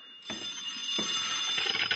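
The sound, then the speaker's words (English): A telephone bell rings continuously after a brief quiet start, a bright, steady metallic ringing that holds at an even level to the end. “with the ringing of the telephone. I'll get it”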